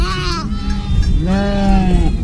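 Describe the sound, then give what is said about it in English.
Goats bleat in two long, loud, wavering cries, each rich and nasal with a trembling quality, separated by a brief pause. “I'm still Gary, and hello, I want to talk to you about goats, and I want your help. Do these sounds you can hear in the background, do they turn you on?”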